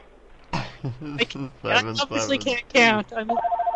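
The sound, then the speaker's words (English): A telephone rings in the background while a person talks over it. The ring comes through most clearly at the end as a steady, pulsing trill. “The phone's ringing in the background.”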